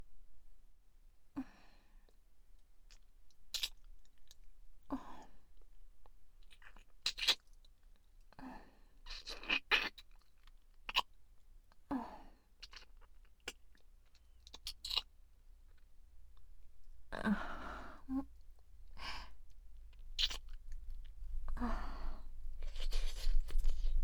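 Wet licking and mouth sounds in a face-licking roleplay: many soft clicks, smacks and slurps in irregular bursts. They are quiet and grow busier and denser toward the end.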